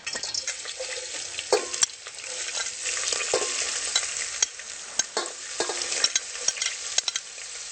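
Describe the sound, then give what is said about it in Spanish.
Chopped vegetables, including bell pepper, fry in hot oil for a sofrito while being stirred with a small spatula, giving a loud, steady hiss of sizzling broken by scattered sharp clicks and scrapes, with no voices. “Tenemos el aceite caliente y ahora vamos a agregar las verduras para sofreír.”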